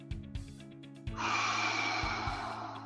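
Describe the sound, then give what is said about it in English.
A deep breath is drawn during a relaxation breathing exercise. After about a second a loud, breathy inhalation begins and rushes on steadily to the end, over low, sustained humming tones. “And I'm going to take a deep breath. Hold it.”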